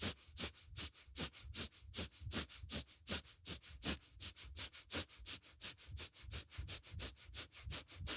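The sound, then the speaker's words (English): Rapid rhythmic breathing of a breath of fire exercise, many short, forceful, sniff-like pulses in a steady fast beat of about three to four per second, sustained throughout with no talking. “Inhale out, exhale in, inhale out, exhale in. Breath of fire.”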